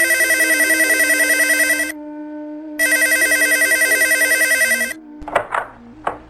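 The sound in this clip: Telephone ringing on a call placed to a doctor: two long, loud electronic ring bursts separated by a short gap with a low steady tone, followed by a few short, uneven sounds at the end.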